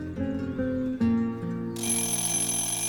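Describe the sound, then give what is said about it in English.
An old alarm clock goes off in a cramped bedroom, sounding a steady, faint ringing tone that gains a brighter, higher ring partway through. “In the cramped bedroom, grandfather's alarm clock goes off.”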